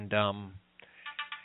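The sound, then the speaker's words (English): Telephone line tones as a call from a radio phone line goes through to voicemail: a long buzzing tone, then a short pause and a run of quick, thin beeps. “That's you calling me on one phone and my radio here trying to leave a message with you on your phone.”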